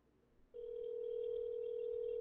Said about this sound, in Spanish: vamos a ver ahora mismo, a ver si nos contesta. Está sonando.